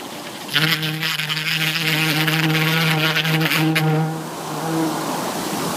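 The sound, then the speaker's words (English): A bee buzzes during buzz pollination, a steady, loud, low-pitched harmonic drone that holds for about three and a half seconds and then cuts off. “So you all thought that this was merely the sound of a bee buzzing, right? Well, you would be wrong. It's much more than that. It's the sound of buzz pollination.”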